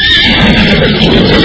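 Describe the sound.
A horse neighing: a loud, sustained whinny lasting about a second and a half, heard alone.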